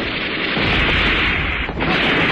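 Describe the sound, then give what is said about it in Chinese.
Artillery fire striking Jingtai village in a war drama effect, a loud, continuous roar of overlapping blasts and booming rumble that fills the whole stretch without a break. “敌人的炮火向井台村打过来”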